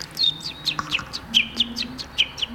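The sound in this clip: A person imitates the contented cheeping of a chick: many short, high chirps in a quick, irregular rhythm over a faint low hum.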